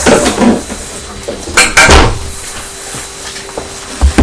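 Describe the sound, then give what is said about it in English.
A cupboard door opened and shut while a cake box is put away, giving a few wooden knocks and clunks, a heavier bang midway and two quick thuds at the end. “Put it in the cupboard, shall we now?”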